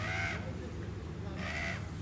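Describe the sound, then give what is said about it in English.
A crow cawing: two harsh, drawn-out caws separated by a short pause, fairly faint over a steady low background hum. “shut up, you stupid fucking crow”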